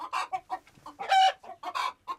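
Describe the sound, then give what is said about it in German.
Chickens clucking in a quick, busy string of many short, bright calls, with one longer, louder squawk near the middle. No other sounds or voices are present. “Ah, Hühnergackern, da sind überall Eier drin.”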